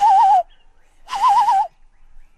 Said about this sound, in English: That bird back there. What are they saying?